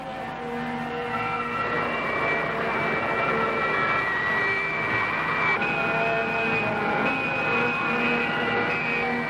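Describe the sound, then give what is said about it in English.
An aircraft engine roars steadily with thrust being increased, a dense, continuous rush layered with whining tonal lines, and the tone shifts noticeably partway through. “Ascend. 38 degrees. More thrust. I'll increase the thrust to Mach 80.”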